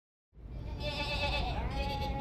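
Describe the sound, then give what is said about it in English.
Sheep bleating in a field beside a village road, many overlapping bleats forming a loud, continuous chorus that starts abruptly and holds steady to the end. “Sheep. Lots of sheep. I can see that. But what are they doing here? Eating grass, probably.”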